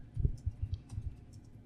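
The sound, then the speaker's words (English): The backspace key on a computer keyboard is tapped repeatedly, giving a quick series of sharp, faint plastic clicks in an uneven rhythm. “Can I click backspace?”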